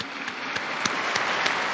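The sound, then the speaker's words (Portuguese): A crowd applauds two newly beatified women in a steady, dense wash of clapping that holds an even level throughout, with no talk over it. “Às duas beatas, um aplauso, todos juntos. Alle due beate, un applauso, tutti insieme.”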